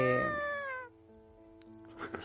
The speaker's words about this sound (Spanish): Ha sido un grito de horror.